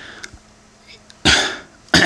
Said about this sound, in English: Sorry, I've got some junk in my throat.